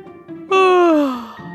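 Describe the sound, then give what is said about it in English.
A voice imitates a little bear cub's yawn: one drawn-out, loud voiced yawn that slides steadily downward in pitch and fades out. “Little Bear yawned,”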